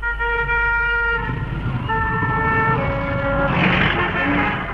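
Heavy traffic flows through a busy, complicated city crossing: a constant low rumble of passing cars with long, steady horn tones sounding over it, shifting in pitch, and no voices.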